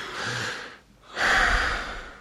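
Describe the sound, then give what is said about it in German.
Someone takes a deep breath to relax the body: two breathy, airy rushes separated by a short pause, the second louder and longer than the first. “Entspann deinen Körper und atme tief, tief durch.”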